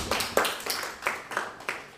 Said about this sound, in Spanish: Correcto, muy bien. Un aplauso para Isabel.